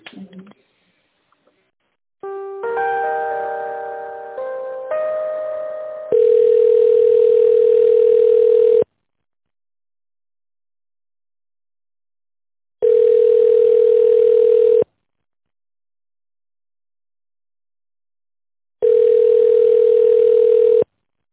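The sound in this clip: Telephone ringback tone heard while a business call is transferred: a short burst of shifting electronic tones, then three long, steady, low beeps separated by silent gaps.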